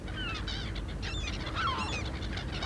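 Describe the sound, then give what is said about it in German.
A pet parrot calls near its nest with harsh, honking squawks. A few wavering calls come in quick succession over a steady, noisy background. “Kay ist doch ein Papagei.”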